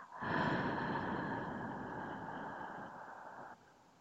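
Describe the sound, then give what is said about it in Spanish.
A deep breath through the nose and out through the mouth: one long, airy rush of breathing, strongest at the onset, easing slightly, then stopping abruptly into near silence. “Inhala profundo por tu nariz. Exhala por tu boca.”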